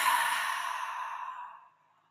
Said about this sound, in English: Close your eyes. Exhale any stale air you have in your lungs.